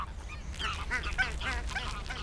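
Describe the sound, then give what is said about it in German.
Chattering greylag geese in a city park in Stuttgart, with many overlapping honks and cackles rising and falling over a steady low background rumble. “Auf dem Rückweg empfangen mich in den unteren Anlagen schnatternde Gänse. Die meisten sind richtige Graugänse,”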